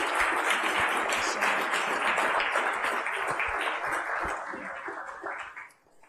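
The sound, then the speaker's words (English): An audience at a Tennessee business event applauds a guest: steady, dense clapping holds for about five seconds, then tapers off quickly at the end. “Let's give it up for Margaret.”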